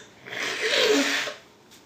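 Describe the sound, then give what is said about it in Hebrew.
A single long nose blow from someone with a cold: a breathy, snorting rush of air that swells and fades over about a second, alone with no talk. “זה מצחיק שישמעו את זה בפודקאסט, שאני ככה מקנח”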